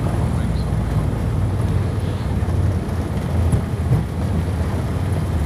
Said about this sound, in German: Das war die Landung in Portugal. Man hört's und die Maschine rollt langsam aus.